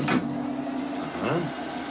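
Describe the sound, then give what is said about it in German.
A well-lubricated machine hums steadily while running, with a brief change in its tone partway through as it shifts gear. “Sie hören, es ist alles gut geschmiert. Ja. Jetzt hat er am zweiten Gang geschalten. Und jetzt hat er wieder aufgeschalten.”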